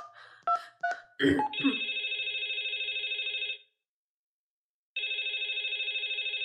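A telephone on a government line rings with two long, steady electronic trills, the second cut off, after a few short bursts of sound.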